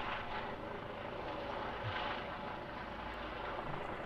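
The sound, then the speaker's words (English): A low-flying plane passes overhead with a faint, steady rumbling drone that continues evenly for about four seconds without a clear rise or fall. “it is getting lower. Where's that thing landing? Is there a secret airport down the street that I don't know about?”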